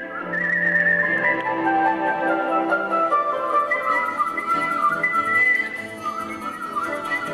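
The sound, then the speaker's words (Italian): A professional whistler whistles a melodic tune alone, with clear sustained notes stepping between pitches and a steady loudness throughout. “Ora proviamo a contattare il nostro fischiatore professionista”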